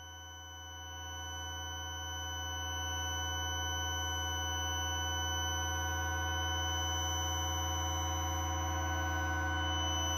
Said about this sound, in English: So I've got some feedback going on the Desmodus.